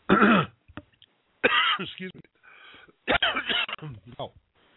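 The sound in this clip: Throat clearing by a person with something caught in the throat, a few harsh, voiced rasping bursts separated by short silences.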